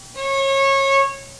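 C sharp sounded with the second finger on the middle tape of the A string of a stringed instrument; a single even, sustained note of about a second that rises gently in loudness near its end, then stops.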